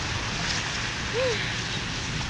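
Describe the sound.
Heavy rain falls in a steady, broad hiss that stays constant and fairly loud throughout.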